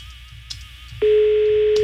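A telephone ringing tone after a call is dialed: a faint warbling tone first, then a loud, steady electronic tone that comes in midway and holds without a break to the end.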